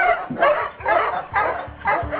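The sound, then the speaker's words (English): Huskies bark and yip in a few sharp, overlapping bursts mixed with higher whining cries, loud and steady across the short stretch. “Must you, Huskies? Gee-haw!”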